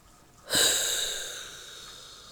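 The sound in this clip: A deep breath drawn in through the nose: one loud, hissing intake that starts abruptly and then fades slowly over about two seconds.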